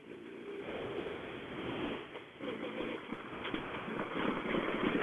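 A rally car driving off, its engine a faint low rumble that grows louder toward the end.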